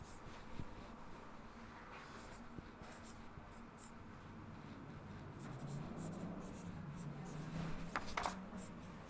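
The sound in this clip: Faint, continuous scratching of writing goes on for several seconds as a teacher writes out an example sentence during a grammar lesson.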